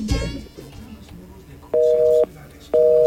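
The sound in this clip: Telephone tone after a caller hangs up: a steady electronic beep sounds twice, each lasting about half a second, the second running to the end, following low muffled noise at the start.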